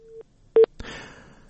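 Telephone tones while placing a call to a reporter in Kabul: one faint steady tone, then two short, loud beeps close together, followed by a noisy hiss.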